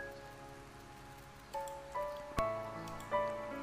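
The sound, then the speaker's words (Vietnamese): Rain patters onto the ground at dusk as a soft, steady hiss, broken in the second half by four bright, pitched drip-like plinks that ring briefly. “Hoàng hôn, mưa tí tách rơi xuống đất, từng hạt giống như nước mắt trượt xuống cửa sổ thủy tinh.”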